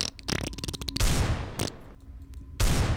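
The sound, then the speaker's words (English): Gunfire with bullets being shot: a rapid rattling burst of shots, then a few heavier, louder blasts spaced apart, sharp and percussive with no voices. “I can dodge all those bullets. And they went directly behind you and they shot all the guards.”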